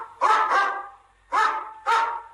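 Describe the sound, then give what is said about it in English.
A dog barks four times: two quick barks close together, a short pause, then two more single barks. The barks are sharp and fairly loud, with no other sounds. “Dog. This is a dog. Dog. What does a dog say?”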